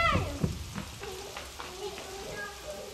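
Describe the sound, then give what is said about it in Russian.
Pattering rain hiss, a steady crackly wash used in a children's music lesson about a rain piece, with a voice briefly at the start and a few faint tonal notes over the noise. “Ой, дождик! Скорее, прячемся в домике!”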